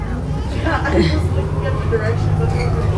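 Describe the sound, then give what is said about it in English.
Interior of a moving bus: a steady low engine rumble and road noise run throughout, with a faint murmur of voices underneath. “Sorry, I'm almost gonna get off the bus.”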